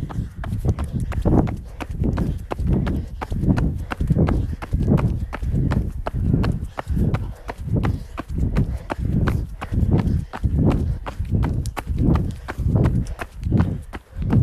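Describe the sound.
Many heavy, rhythmic footfalls come from people running at a steady, brisk pace in a workout class. The thuds repeat evenly throughout.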